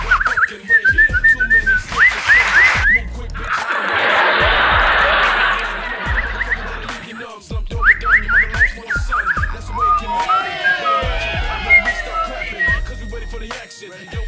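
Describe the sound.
A person whistles to imitate a bird's song in short bursts of quick, chirpy high notes. A stretch of broad hissing noise separates the bursts, and later whistled phrases run into a busier, warbling passage.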